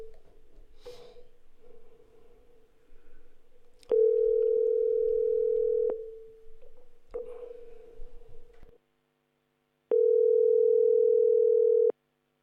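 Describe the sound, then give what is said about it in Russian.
A telephone ringback tone plays while a call is placed: two long, steady mid-pitched tones, each about two seconds, separated by a pause that holds faint noise, with softer rustling before the first tone. “Сергей Ильичу звоним.”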